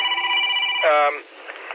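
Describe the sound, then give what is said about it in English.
A phone rings with steady electronic tones, and a voice briefly cuts in partway through. “Oh, and I think my phone's ringing. I'm not gonna answer it.”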